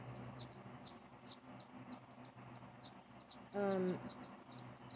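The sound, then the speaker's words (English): Chicks chirp loudly and incessantly, a quick string of many short, high peeps repeating at a fairly even pace, with one brief lower call breaking in near the end. “These chicks are so loud, giving me a headache.”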